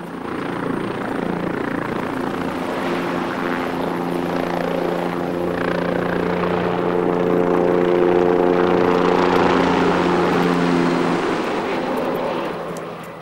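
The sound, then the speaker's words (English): A helicopter departing over rocky terrain gives off continuous loud rotor and engine noise. The thrumming whine holds steady, swells slightly, then begins to fade toward the end. “As the helicopter leaves”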